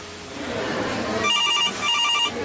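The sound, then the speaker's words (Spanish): A telephone bell rings in two short bursts of bright, high trilling, following a rough, rumbling opening. “El teléfono timbró a las 9:15 de la mañana en uno de los cubículos de la línea 106 en la Secretaría de Salud de Bogotá”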